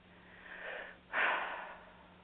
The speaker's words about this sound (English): Take a nice breath in.